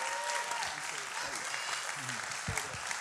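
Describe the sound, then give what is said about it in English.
Audience applause welcoming a guest speaker, a former football team chaplain, at a church service: a soft, steady patter of clapping with voices talking over it. “I would like you to put your hands together and welcome him.”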